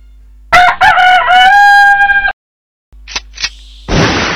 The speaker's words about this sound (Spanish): un gallo de mierda